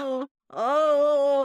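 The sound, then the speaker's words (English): A voice imitates a nervous airplane passenger moaning: a short groan, a brief silence, then a longer, louder moan that swells in at the start and holds a steady pitch before cutting off. “So I look over because I hear like moaning, like,”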